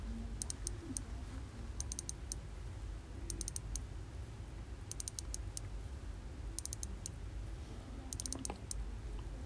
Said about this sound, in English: It has the most gentle, fine click, and this is what it sounds like.